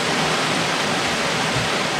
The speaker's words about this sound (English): Oh, hey, it's raining again.